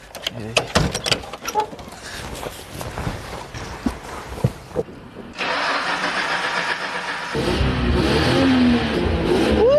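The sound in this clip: A car engine starts after a run of clicks and knocks, settles into a steady idle and then revs up louder and higher toward the end, with brief voices early on.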